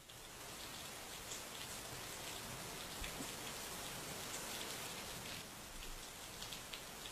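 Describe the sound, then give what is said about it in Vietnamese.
Sudden heavy rain pours down over countryside rice fields, a dense, steady hiss of countless drops pattering without a break for the whole stretch. “Vừa lúc, cơn mưa cứ như là có ai trút xuống từ trên tầng không vậy.”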